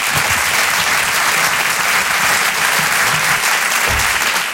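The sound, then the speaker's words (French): Loud, dense audience applause for a comedian on stage, a continuous roar of many hands clapping at an even level throughout, with no speech over it. “Je vous demande un tonnerre d'applaudissements, s'il vous plaît, pour Halil Vardar.”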